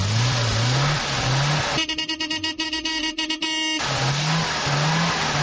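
A Zastava Yugo car's engine, the last one leaving the production line, revs loudly in repeated rising surges. A harsher, buzzing stretch breaks in midway before the engine drone returns.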